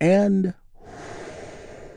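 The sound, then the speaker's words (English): A big, deep breath drawn in together during a guided relaxation moment: a soft, steady breathy rush lasting over a second, following a brief spoken phrase. “where we get to take a big, deep, healing breath all together.”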